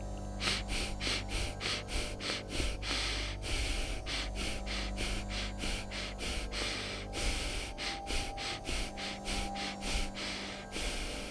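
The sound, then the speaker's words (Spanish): Yogic breathing exercise of four short breaths and one longer breath, done to draw in prana: repeated airy, forceful breath bursts in clustered groups with brief pauses between, fairly soft, over a steady low drone. “y es una respiración que consta de cuatro inhalaciones y exhalaciones cortas y una quinta inhalación y exhalación más larga, generando un ciclo que puede realizarse así.”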